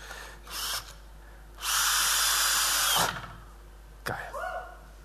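A power drill fitted with a bit drives a screw. A short whirring burst comes first, then a sustained loud spin of about a second and a half, followed by a few brief, quieter bursts.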